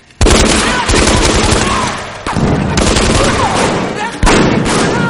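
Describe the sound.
Machine gun fire from a soldier on a raised parapet in a snowy war setting: loud, rapid sustained bursts that roar continuously, broken by a few brief pauses before the firing resumes with sharp fresh onsets.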